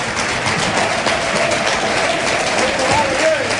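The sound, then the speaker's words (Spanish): Recreativo de Huelva football fans applaud after an away win against San Roque, a dense, continuous wash of clapping from the crowd with a faint voice heard over it. “los aplausos de la afición del Recre, que disfruta, que está feliz”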